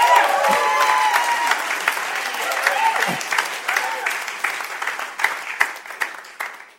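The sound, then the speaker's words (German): Audience applause for a man who built a door, dense and loud at first, then slowly thinning into looser, separate claps toward the end, with faint voices early on. “Benedikt, für dich der Applaus. Super gemacht. Applaus für ihn!”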